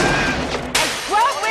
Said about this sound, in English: you're seeing an outright blazing gun battle between the Colombians and the SWAT team.